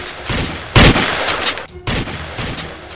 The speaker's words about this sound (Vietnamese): Bất ngờ, một loạt súng vang lên bên ngoài, những tia sáng màu vàng loằng nhoằng trong đêm tối.